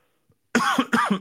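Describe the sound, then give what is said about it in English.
Two sharp coughs, brought on by a tickle in the throat, come in quick succession after a moment of silence. Each is loud and raspy, and the second follows closely on the first. “Pardon me. Wrong week to have a little tickle in the back of the throat.”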